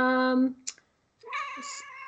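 A cat meows twice, first a long, clear, tonal call, then after a short silence a second rising meow.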